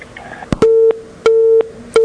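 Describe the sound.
A telephone busy tone after a call is cut off: steady low beeps repeating in a regular on-off rhythm, three in all, preceded by a couple of sharp clicks.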